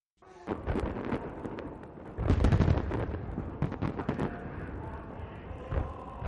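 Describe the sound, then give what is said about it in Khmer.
Fireworks go off at a state funeral in Pyongyang in many dense cracking and booming bursts. A heavier rumbling cluster comes near the middle, over a continuous roaring background. “ពិធីរបស់សពគីមចុងអ៊ីលបានចាប់ផ្ដើមដោយមានការបាញ់កំជួចដ៏ច្រើននៅក្នុងរដ្ឋធានីភ្យុងយ៉ាង”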